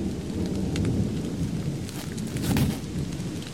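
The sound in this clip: Steady heavy rain hisses without a break, with low thunder rumbling beneath it and a few louder swells.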